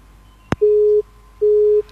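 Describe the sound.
Telephone busy signal after a call is cut off: a sharp click, then two steady beeps of the same pitch, each about half a second long and separated by a short gap.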